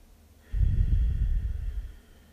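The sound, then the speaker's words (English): One long, deep breath drawn in through the nose: a low, breathy rush that swells suddenly, holds for about a second and a half, then fades out. “Activate change and generate healing immediately. Deep breath.”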